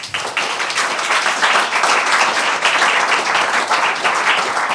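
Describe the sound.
An audience at English National Opera applauds to welcome a speaker. Dense, even clapping fills the whole stretch at a steady loudness, with no voices over it.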